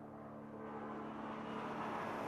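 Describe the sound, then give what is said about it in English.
An airplane landing or taking off near an airport, heard as a faint, continuous low roar that swells slightly over a couple of seconds. “Hear that? I live close to the airport. I don't mind that. I like to think of all those people travelling around the world, having adventures. I like the sounds of the planes landing and taking off.”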